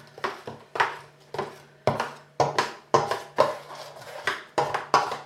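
Spoon-in-bowl mixing of potato dough made with potatoes and eggs: a steady series of short scraping, knocking strokes in a fairly even rhythm, moderately loud, with no talk.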